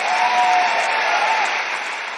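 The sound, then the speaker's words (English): Dense, steady applause from an audience, loud and continuous like a wash of claps, holding level before easing off slightly toward the end. “Ruckus, yeah, applause.”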